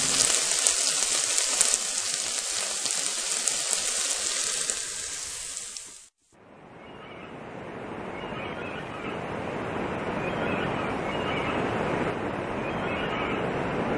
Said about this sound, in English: as you can hear, we're at the shore today.